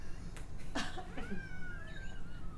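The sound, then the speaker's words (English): An unhappy cat meows in a few drawn-out, wavering cries, some rising and falling in pitch, over a steady low background hum. “But the cat is not happy. He does not do that to me at all.”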